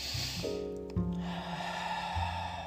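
A big, audible breath is drawn during a guided meditation. It is soft and airy, over steady sustained musical tones.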